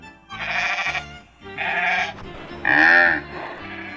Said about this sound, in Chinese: 哇，咪咪叫的羊哎，还有低着头吃草的牛，在草原上奔驰的马，好多好多的牲畜啊。